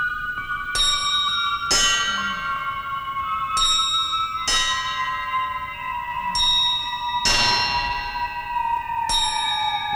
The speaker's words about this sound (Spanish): Comenzaron a oírse las campanadas que el reloj no podía dar.